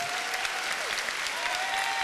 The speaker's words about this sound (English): I want you to take both your hands and give the Lord a biggest hand clap of praise you can find.